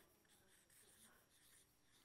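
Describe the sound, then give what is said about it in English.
Faint scratching of writing on a board, a steady run of short pen strokes lasting about two seconds with no voices. “Okay, I'm going to write this up. 3-4 means that she's at risk because of the 4, but not as much of risk. So I'm going to write them up here. Can I write them up here?”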